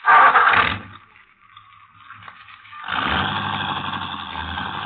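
A car engine roars loudly, drops to a low idle, then builds again into a steady rumbling drone as the car drives off.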